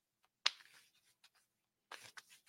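Shuffling a Woto tarot deck: one sharp snap of cards followed by a soft rustle, a few faint taps, then a second longer burst of riffling near the end.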